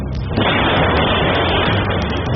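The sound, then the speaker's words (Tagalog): An LPG gas tank explodes, captured by a CCTV camera: a loud, dense roar of blast noise that fills the entire short clip without easing. “Tangge ng LPG, sumabog”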